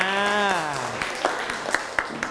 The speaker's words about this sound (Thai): ปรบมือให้กับเพื่อนครับนะ